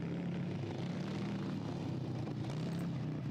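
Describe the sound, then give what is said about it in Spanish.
A steady low engine drone from a dozen motorcycles and run-down cars heading toward the listeners, a continuous rumbling hum that stays at an even loudness throughout. “me aspen si no son una docena de motocicletas y coches destartalados los que se dirigen hacia vuestra posición”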